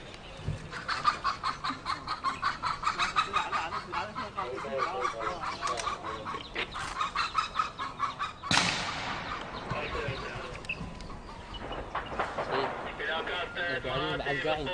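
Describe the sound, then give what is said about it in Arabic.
A hen with chicks clucks repeatedly in a steady, rhythmic series of throaty calls while people talk over it. “ابو مصطفى بنص هذا الرمي والاشتباك هاي الدجاج اسمع صوته لان عندها كتاكيت عندها كتاكيت”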